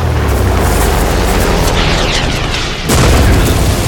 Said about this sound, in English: I'm calling in an airstrike. Preparing for airstrike. Target acquired. Missile fired.